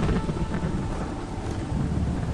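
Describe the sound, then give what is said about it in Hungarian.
A thunderstorm sound effect of wind and rain: a dense, continuous roar with deep rumbling low end and a hissing wash of rain, holding steady and loud throughout without distinct separate claps. “Zúgott a szél, a vihar hozta. Kendőtlen fejét összeborzolta. Villámok cikázva csaptak az esőbe, míg Terka Gézát tolta a sírkerbe.”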